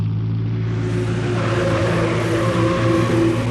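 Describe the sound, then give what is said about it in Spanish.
A Rolls-Royce car engine, used as a staged sound effect, runs as a steady, fairly loud low drone with layered humming harmonics, unbroken from start to end with no voices. “Calimán acciona el switch de encendido, poniendo en marcha el lujoso Rolls Royce propiedad de Ferrison. Controla el volante sorteando el camino entre los jardines hasta cruzar las rejas de la mansión.”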